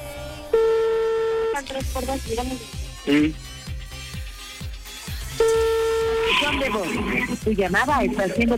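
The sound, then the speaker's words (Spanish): A telephone ringback tone on an outgoing call, heard as two long, steady, low buzzes separated by a gap. Both buzzes sound under lively voices and other busy sounds. “le estoy marcando, ojalá conteste porque pues guardó silencio y yo creo que después colgó”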